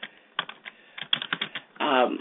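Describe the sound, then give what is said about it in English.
Typing on a computer keyboard: a quick, irregular run of many crisp key clicks in uneven bursts, followed at the end by a voice starting to speak. “As a matter of fact, I'm typing it right now on here”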